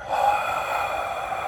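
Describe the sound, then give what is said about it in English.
A deep, very audible exhale through the mouth during a guided cleansing-breath exercise: one long, steady, breathy rush of air lasting about a second and a half, fairly loud and alone. “So as you inhale, and then exhaling through the mouth very audibly,”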